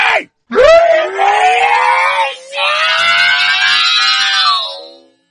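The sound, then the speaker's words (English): A person screams loudly and for real: a short cry, a brief gap, then one long, drawn-out, strained scream that breaks off for a moment midway and carries on before cutting off. “You could scream it. Remember like I did a few weeks ago? Scared the shit out of my wife? I didn't like that at all. It's fun. It's just bad. It's fun to really scream.”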